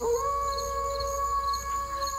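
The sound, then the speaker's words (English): A wolf howls in one long, sustained note rich with overtones. The note swoops up at the start and then holds steady and fairly loud for about two seconds, heard alone. “enjoyed hearing the crack of the whip, and the howl of the wolf”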